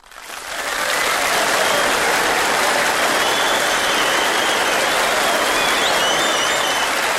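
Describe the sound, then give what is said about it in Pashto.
Audience applause at a ceremony where an Afghan public health ministry certificate of appreciation is presented: loud, dense, steady clapping that swells in within the first second and carries on evenly to the end, with no talk over it. “حاجی صاحب نادر خان په ویاړې خې چکچکې وکړي”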